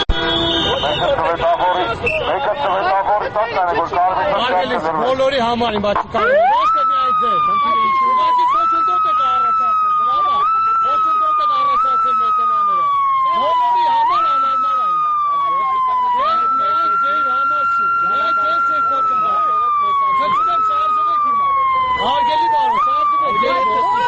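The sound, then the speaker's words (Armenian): Vehicle sirens switched on in a traffic jam in front of a government building: after a dense, noisy opening, a loud siren cycles repeatedly, each cycle jumping up in pitch and then sliding slowly down, over a busy background. “օգտվելով առիթից, որ ավտոմեքենաների խցանումը առաջացավ հենց կառավարության շենքի դիմաց, միացրեցին ազդանշանները։”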